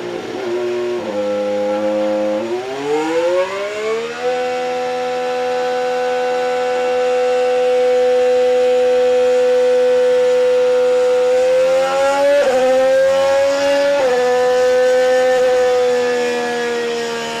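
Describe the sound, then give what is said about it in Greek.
A Mercedes 2026 power unit runs as a loud, sustained harmonic engine drone. Its pitch steps up over the first few seconds, holds high and steady for a long stretch, then shifts and dips slightly near the end. “Θα ακούσουμε τώρα, μας έδωσε η Mercedes τον ήχο της κινητήριας μονάδας για το 26. Για να την ακούσουμε.”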